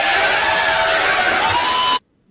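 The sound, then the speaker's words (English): A crowd cheering wildly makes a loud, dense roar of voices that holds steady for about two seconds, then cuts off abruptly into near silence. “And the crowd went wild.”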